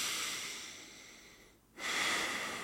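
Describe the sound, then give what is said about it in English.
Slow, soft breathing in and out through the nose during a guided breathing exercise: faint, steady airy rushes with a brief dip between breaths and no talk. “you want to breathe in through your nose. Just your nose and then out through your nose.”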